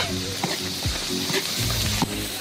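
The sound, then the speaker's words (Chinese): Loud, continuous sizzling as handmade Sichuan chili bean paste and a blended pickled chili paste are stir-fried until fragrant, with a few brief scraping and tapping stirring sounds over the steady hiss. “酱料炒香”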